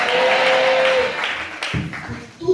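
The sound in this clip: An audience applauding and acclaiming at a religious retreat: steady, dense clapping with voices mixed in, the sound loosening and thinning toward the end.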